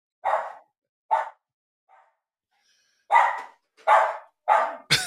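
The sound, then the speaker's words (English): A dog barks at someone at the door, letting out a series of loud, separate barks spaced by pauses, with one faint bark early on and the last few coming closer together. “There's somebody at the door. You can probably hear the dog barking now.”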